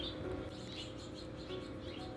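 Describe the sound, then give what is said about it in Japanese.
Birds chirping outdoors, many faint, quick high chirps and tweets repeating over a steady background hiss, with no talk. “ものすごく私以上に鳥たちの方が今日は喋ってくれてると思います。”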